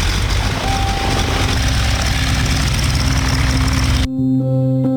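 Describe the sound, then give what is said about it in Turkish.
The engine of a replica vintage propeller aircraft drones loudly and steadily with a rough, throbbing low hum, then breaks off abruptly just before the end. “Dedesinin uçağının replikasıyla antrenman yaptı.”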